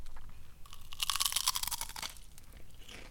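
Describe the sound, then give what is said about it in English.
Pringles potato chips are chewed right into a microphone, producing crisp, crackling crunches that peak in a dense burst of bites midway, with softer chewing before and after and no talk. “I get some Pringles. Ready for this ASMR?”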